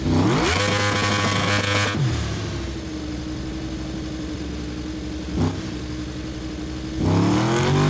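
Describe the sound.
A motorcycle engine revs in a racing video game, where the rider has crashed while using the rear brake. The loud engine note climbs at first, then drops to a steady lower drone and climbs again near the end.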